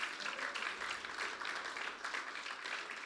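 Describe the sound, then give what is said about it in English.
Applause from a church gathering at Bayside Church, a soft, continuous patter of many hands clapping at an even level throughout. “I think we should give them all a big round of applause”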